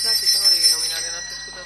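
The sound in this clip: A small bell rung during a council session gives one bright, sustained ring with clear high tones that hold steady and then slowly fade over about a second and a half.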